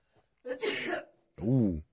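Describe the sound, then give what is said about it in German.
A person sneezes, a sharp, breathy burst of noise followed after a short pause by a brief voiced sound. “warte nochmal, niesen”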